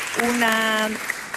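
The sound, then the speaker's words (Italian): Audience applause at a panel on artificial intelligence and ethics, a steady wash of clapping beneath a voice speaking over it. “Grazie, ancora un applauso”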